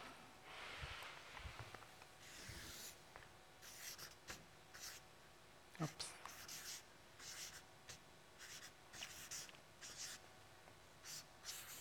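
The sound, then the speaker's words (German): Words being written out by hand: faint, scratchy strokes and rubbing in many short bursts, with small pauses between them. “Und ich schreibe euch die mal auf.”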